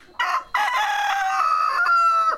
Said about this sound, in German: Hühner und Ziegen laufen herum.